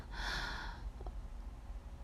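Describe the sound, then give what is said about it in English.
A single deep breath, faint and airy, drawn slowly by a person bracing themselves, followed by near silence with only a soft low rumble. “I'm just gonna take a couple deep breaths.”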